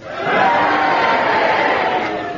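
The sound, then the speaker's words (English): An audience cheers and boos together while voting on a judgment of Oliver Cromwell. The dense roar of many voices swells in quickly and holds loud and steady for about two seconds. “If you agree with Kenneth Williams' judgment on Cromwell, cheer. If you disagree, boo, and do it together now.”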